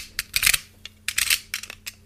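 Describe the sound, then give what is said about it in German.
A utility knife cuts into a parcel in several short, crisp rasping strokes, with quiet gaps between the bursts of scratchy slicing. “Das ist ein, ja natürlich, das ist ein Cutter, ein Schneidemesser.”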